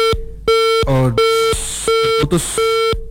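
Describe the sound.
Loud disconnect beeps from a dropped phone call, steady mid-pitched tones repeating in regular pulses, with brief garbled voice fragments in the gaps.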